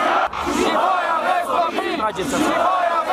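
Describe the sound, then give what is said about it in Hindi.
Protesters outside the Romanian government headquarters chant slogans demanding the prime minister's resignation, a dense mass of shouting voices in rising and falling rhythmic waves with brief dips between phrases. “इससे पहले Romania की सरकार के मुख्यालय के बाहर प्रदर्शन करने जुटे ये प्रदर्शनकारी नारे लगा रहे थे कि प्रधानमंत्री को इस्तीफा देना ही होगा।”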